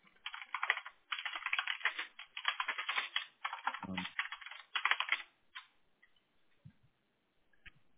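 Notes typed on a computer keyboard: rapid runs of soft, crisp key clicks come in several bursts with short pauses. They thin out to a few scattered taps near the end.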